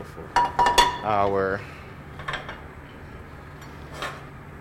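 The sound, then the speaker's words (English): Food being flipped from a pan onto a plate: a few sharp metallic clinks of cookware close together, then a brief voice and faint scattered clatter. “And then I'm going to switch grips. So I'm going to hold it like this and then just flip it right onto”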